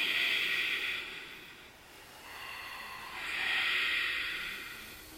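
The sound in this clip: Ujjayi yoga breathing, the audible ocean-like breath used in yoga practice: soft hissing, throaty air drawn in two long swells, one fading before a slight lull and the second rising again, with no talking.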